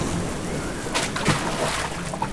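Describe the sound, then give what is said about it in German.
A cannonball jump into lake water beside a boat bursts in a splash and then sloshing water, rising above steady background noise. “Du bringst mit deiner Arschbombe ja fast das Boot zum Kentern.”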